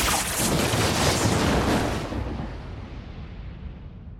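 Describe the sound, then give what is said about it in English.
A massive magical energy blast shoots from the tip of a wand into the dark sky, a loud, roaring whoosh that holds for about two seconds and then fades to a softer rumble. “He gazes at the black Elder Wand in his hand and thrusts up his arm. A massive force of energy shoots from the tip of the wand, illuminating the dark sky.”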